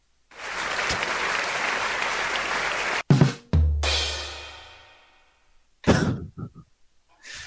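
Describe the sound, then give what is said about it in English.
Audience at a live comedy show clapping hard: dense, even applause for about three seconds that cuts off sharply, followed by throat clearing and a few coughs in the quiet. “They're clapping a ton for Eric. Clap!”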